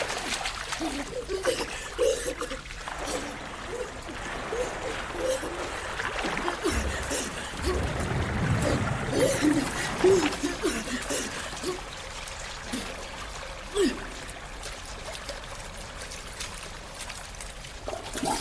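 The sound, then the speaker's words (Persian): Water splashing and sloshing as someone repeatedly takes a breath, dives underwater and resurfaces. A continuous wash of trickling, churning water with short splashy bursts, fullest around the middle. “نفس میگیره و زیر آب میره. دوباره بالا میاد. دوباره نفس میگیره و زیر آب میره.”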